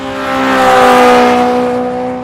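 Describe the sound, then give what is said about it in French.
Cars speeding along a fast road, a steady droning engine whine with strong harmonics that swells to a peak near the middle and eases off again, with no voices. “Tous les hérissons se racontaient des histoires effrayantes sur d'épouvantables voitures, leur bruit strident, leur allure folle.”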